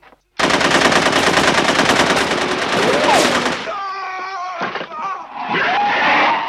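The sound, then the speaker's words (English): Automatic gunfire from Uzis in a film scene where monsters break into a home: a loud, rapid, continuous burst of shots for about three seconds, then a quieter stretch with voice-like cries, then more heavy firing. “Nazi monsters break in and start shooting up the place.”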